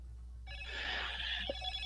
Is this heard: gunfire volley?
no